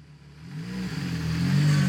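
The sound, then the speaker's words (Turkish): Engine revving of a newly wired race car, a low mechanical drone that grows steadily louder and rises slightly in pitch early on, with no talk over it. “bu motor doğru bağlanmışsa elimizde bir yarış arabası var demektir.”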